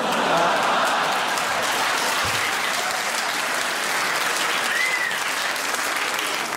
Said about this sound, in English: I think clapping a Parkinson's joke is in poor taste, ladies and gentlemen.